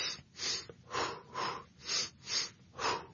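Deep breathing: six soft, airy breaths in a slow, regular rhythm, each swelling and fading smoothly, with no talk.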